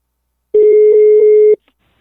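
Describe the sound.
A single telephone ringback tone on a call being dialed: one steady, low electronic buzz lasting about a second, heard alone and followed by silence.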